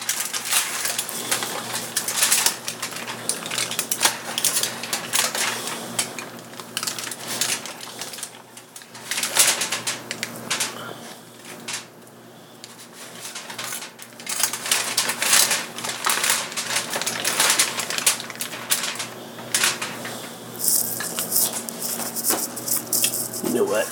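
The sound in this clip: Aluminium foil crinkles and crackles as it is wrapped around ears of corn, a continuous rustling crunch with brief lulls.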